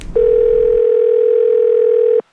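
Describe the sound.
A telephone ringing tone during a call sounds as one flat, steady tone. It holds for about two seconds and then cuts off abruptly, with a low rumble just before it starts.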